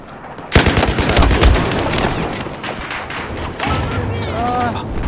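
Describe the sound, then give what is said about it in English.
Video game gunfire and a missile strike: sudden rapid bursts of automatic fire with a heavy low boom, then a dense, rattling barrage that continues while a voice speaks toward the end. “About to die. Someone shot a missile at me.”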